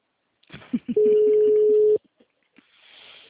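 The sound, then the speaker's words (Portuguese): Telephone call tone before the call is forwarded to voicemail: a single steady, mid-pitched tone lasting about a second, preceded by a few soft clicks and followed by faint hiss. “Sua chamada está sendo encaminhada para a caixa de mensagens.”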